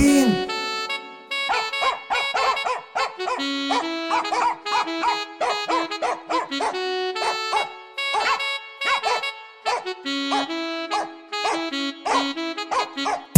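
A dog barks and yips over and over in short, tonal bursts that come in a rhythmic, almost melodic pattern, with some whimpering yelps and brief pauses between the runs.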